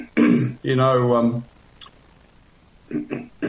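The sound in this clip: A person with a sore throat clears it during a sermon, with two voiced, raspy bursts, the second longer and louder, followed by faint small sounds and a few brief quieter noises.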